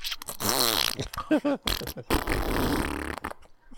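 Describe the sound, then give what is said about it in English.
A voice imitates a fart with a wet, buzzing raspberry. A long wavering stretch comes first, then a few short sputtering bursts, then another long rough blast, all fairly loud. “you remember that sound your asshole made? Where it's like...”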